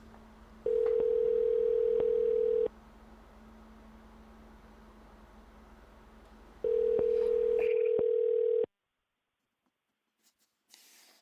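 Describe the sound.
Telephone ringback tone on an outgoing call: two steady, even buzzing tones, each lasting about two seconds and separated by a long pause, over a low constant hum, then near silence with a few faint clicks.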